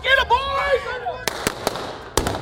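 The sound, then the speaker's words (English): Blank gunshots fired during a staged Old West shootout: several sharp, loud cracks in quick succession, following a man's raised voice. “the bullets are blank, of course, and the whole shootout is a game.”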